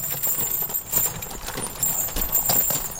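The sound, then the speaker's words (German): Horse hooves clip-clop as a horse-drawn carriage pulls up in front of a basket-weaver's hut, a steady run of soft, irregular hoof strikes over a quiet background. “Vor der Korbflechterhütte fährt die Kutsche mit Fremdenführerin Barbara Löchel vor.”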